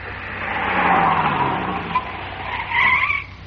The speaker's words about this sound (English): The only thing that hasn't happened is a two-ton female skidding up on a tandem.